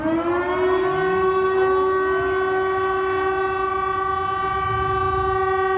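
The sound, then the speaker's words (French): Public alert siren, the kind tested on the first Wednesday of the month in communes around Amiens, wailing on one steady, harmonically rich tone. It stays loud and unbroken throughout, with no voices. “Alors là, c'est la sirène qu'on entend parfois les premiers mercredis du mois dans certaines communes.”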